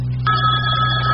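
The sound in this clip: A telephone rings at 3 in the morning. After a brief pause, a single steady electronic ring starts and holds a bright, even tone, loud and clear with no talk.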